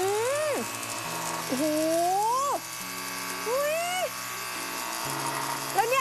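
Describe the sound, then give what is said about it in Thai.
A cleaning machine set to a strong setting sprays a dirty surface: its buzzing motor whine holds steady, then shifts pitch in several abrupt steps beneath a man's ongoing talk. “ปรับหัวอันนี้ผมเอาค่อนข้างแรงหน่อยนะครับเพื่อที่จะทำความสะอาดตรงนี้นะคุณผู้ชมเห็นไหมมันค่อนข้างสกปรกเลยนะครับผมฉีดไป”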